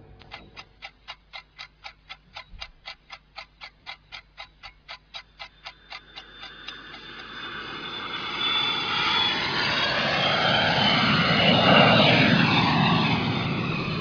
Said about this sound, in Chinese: 我嘅飞机起飞啦。